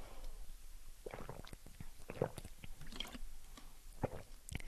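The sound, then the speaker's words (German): Someone taking a drink: faint, wet gulps and swallowing with soft mouth clicks come in an irregular series, quiet and without talk. “Also ja, ich muss mal was trinken.”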